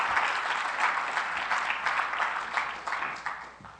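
A church audience applauds to welcome a missionary family, with full, lively clapping that gradually thins and fades toward the end.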